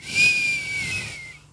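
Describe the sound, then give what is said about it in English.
A person whistles a single sustained high note lasting about a second and a half, with a breathy hiss around it, fading at the end, with no talk. “that was pretty good. That was a pretty good whistle.”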